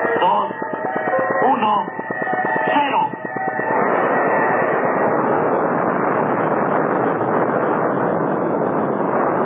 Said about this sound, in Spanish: De los potentes motores del proyectil Atlas se dejó escuchar como un trueno multiplicado varias veces. Grandes lenguas de fuego brotaron de los escapes del gran cohete